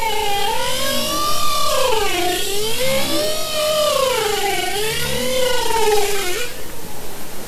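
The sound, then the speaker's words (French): Bowhead whales vocalise underwater in a loud, continuous harmonic song. Its pitch swoops and wavers up and down again and again, ending in a rougher, buzzing tone. “Alors c'est pas des baleines à bosse, c'est baleines boréales.”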